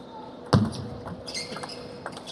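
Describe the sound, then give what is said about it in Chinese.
A table tennis serve in a mixed doubles match: one sharp, loud knock of the ball, followed by a few fainter taps. “张建浩发球”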